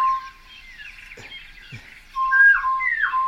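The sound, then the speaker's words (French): A single bird sings a whistled phrase, picked up through a parabolic microphone: a faint held whistle first, then louder, pure sustained notes near the end that step between pitches. “Et là, pour l'instant, c'est un seul oiseau qui fait toute la phrase.”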